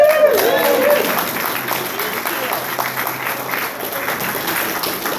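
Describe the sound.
Audience applause welcomes a speaker at a recovery meeting in Orcutt, a dense, steady clapping from a crowd that follows a brief voice at the start and keeps an even level to the end.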